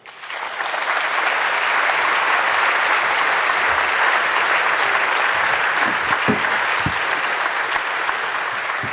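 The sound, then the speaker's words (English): Sustained audience applause welcoming speaker Eben Moglen, general counsel to the Free Software Foundation: loud, dense clapping rises at once and holds evenly for about nine seconds. “Please welcome Eben Moglen.”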